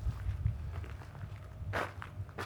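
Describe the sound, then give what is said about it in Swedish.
Faint footsteps of someone walking down from the road to the Karlsvik community hall: soft, low thuds in a steady walking rhythm, quiet throughout. “Ja, då går jag här nere på bygdegården Kommer ner från vägen och ser den eh, fina entrén, den eh, nybyggda.”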